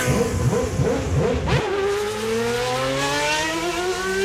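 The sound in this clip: Formula 1 race cars accelerating at the race start: a loud, continuous roar of high-revving engines with layered harmonic whines that climb steadily in pitch as the cars pull away. No voices are heard.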